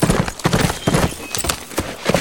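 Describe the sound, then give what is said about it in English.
A horse's hooves clip-clop as a rider heads back to a mansion, with many sharp, evenly spaced hoofbeats in a steady walking rhythm. “He found his horse and rode back to the mansion”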